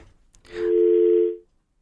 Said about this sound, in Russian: Сорвался звонок.